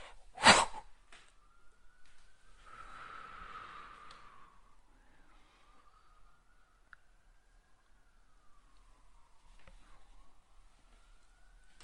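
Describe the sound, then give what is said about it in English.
A long, soft inhalation during a guided breathing meditation, airy and breathy for about two seconds, over a faint sustained wavering tone; a sharp short sniff sounds just before it. “I am ready. As the wave approaches, taking a deep breath in”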